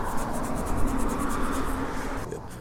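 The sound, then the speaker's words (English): A sticker being peeled off a surface, giving a continuous scratchy, rasping sound with fast, rhythmic crackles that stop just before the end. “Got the sticker about half removed here.”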